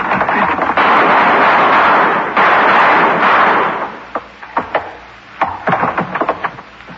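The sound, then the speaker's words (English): Gunshots blowing out a door lock in an old-time radio drama: a long, loud roaring burst, then a few sharp, irregular cracks and thuds. No voices are heard. “I'll shoot the lock, and then we go in. I hit the door.”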